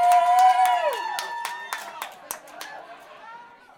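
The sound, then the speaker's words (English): A comedy-show audience claps and cheers, opening with a loud whoop that slides down in pitch, then scattered sharp claps and crowd voices that slowly fade over a few seconds. “clap your hands”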